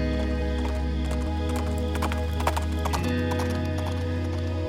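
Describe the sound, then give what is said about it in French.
Hooves of a galloping light grey Arabian thoroughbred clip-clop along a central drive in the countryside, a steady, rapid rhythm at an even, moderate level throughout. “Elle aperçoit alors une ombre qui remonte l'allée centrale sur le dos d'un magnifique pur sang arabe gris clair, lancé au galop.”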